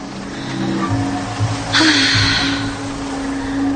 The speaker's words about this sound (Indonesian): Bis itu terlihat mulai berangkat pergi.